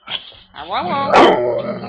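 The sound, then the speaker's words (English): A pet dog vocalizes on cue with wavering, whining yowls and a short yip, as a person talks alongside. “But my doggie wants to say hi. Really say, I love you guys.”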